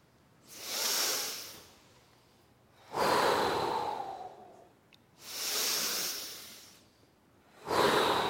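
Slow, deep breathing during a yoga exercise: a series of long, airy breaths, each lasting a few seconds and separated by brief quiet gaps, with no talk.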